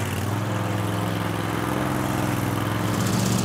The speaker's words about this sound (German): Mit einem Doppelmesser wird das Gras geschnitten. Die Maschine fährt auf Stachelwalzen und schont den Boden.